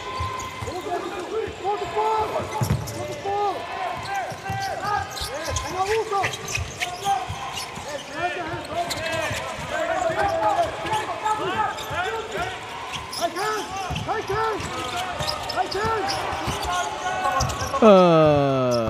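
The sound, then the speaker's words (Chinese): A basketball is dribbled on a court, many rapid bounces thudding in a steady rhythm beneath continuous commentator speech. “运球的时间还是很长的，没有有效的配合”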